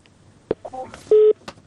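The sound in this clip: Telephone tones sound as a call comes in to a radio call-in show: a quick cluster of short beeps, then a steady tone lasting about a quarter second, followed by one more short blip.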